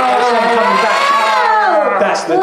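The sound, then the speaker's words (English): A sound effect played backwards, a loud, dense wash of wavering, voice-like tones that swell continuously, with a short dip just before the end. “sound effect reverse. Oh, you wouldn't really notice, but it is.”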